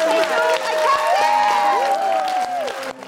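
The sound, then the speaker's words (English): A live audience applauds and cheers, with steady clapping under whoops and shouted voices, staying loud before fading near the end. “Please, please, please, please put your hands together and give a massive, massive round of applause.”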